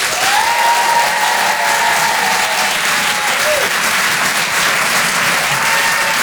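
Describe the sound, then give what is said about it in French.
Audience applause at a comedy show: dense, loud clapping that holds steady for the whole stretch with no break. “Faites du bruit s'il vous plaît pour Charlie Niobé.”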